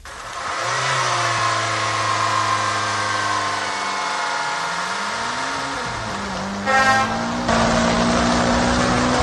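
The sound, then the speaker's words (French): A vehicle travels along a national highway in a northern region. Its engine holds a loud, steady drone whose pitch climbs and dips with gear changes, and a brief burst of noise comes near the end. “À bord de ce véhicule, à Pitoa, sur la nationale numéro 1, le voyageur a encore une centaine de kilomètres à parcourir pour arriver à Pas-d'Armée”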